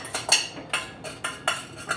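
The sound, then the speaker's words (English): Popcorn stirred with sea salt and olive oil makes repeated scraping, rattling strokes at a steady, brisk rhythm, moderately loud with no voices. “And I'm actually going to stir it around so the popcorn gets absorbed in the olive oil.”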